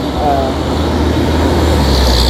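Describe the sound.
A fire engine passes by a store with a loud, steady low roar and broad rushing noise. The noise brightens slightly toward the end.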